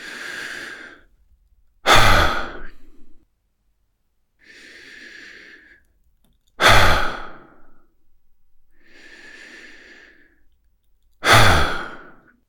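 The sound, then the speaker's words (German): Slow breathing in a relaxation exercise: three soft inhalations, each followed by a loud, breathy 'ha' exhale with a sharp onset, evenly paced and alone with no talk. “Einatmen und entspannt mit einem Haar ausatmen.”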